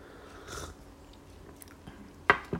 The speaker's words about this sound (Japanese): 少し溶けたマシュマロをちょっといただきますね、このままね。